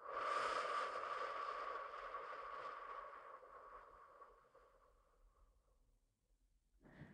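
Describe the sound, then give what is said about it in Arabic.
A long exhale through the mouth during a breathing exercise: a breathy, airy hiss that starts strong and fades slowly over about six seconds, with no talk. “نحبس، زفير من الفم.”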